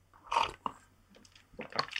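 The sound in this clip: Wet slurping sips of coffee come in two short clusters of squishy mouth sounds separated by a brief pause, fairly quiet and without talk.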